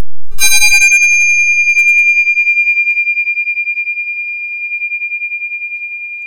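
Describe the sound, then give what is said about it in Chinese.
A Buddhist yinqing hand bell rings out from a single strike, its bright, high tone sustaining with a gentle pulsing shimmer and fading very slowly over several seconds, with nothing else heard. “敲一下印磬”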